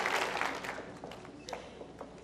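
A church audience clapping hands, a dense burst of applause at first that quickly thins into a few scattered, lighter claps.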